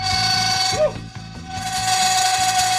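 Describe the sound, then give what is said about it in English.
A cast iron pan resting on chunks of dry ice sings as the metal cools, holding a steady, pure ringing tone with overtones over a fast, rhythmic, low rattling chatter that continues throughout. “That's the sound of the metal cooling down.”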